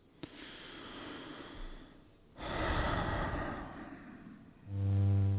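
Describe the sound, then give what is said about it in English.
A deep breath drawn before an auditing session: long, airy breathing in two drawn-out phases, the second louder and fuller, followed by a sustained buzzing tone at the end. “So one more deep breath would be good to go.”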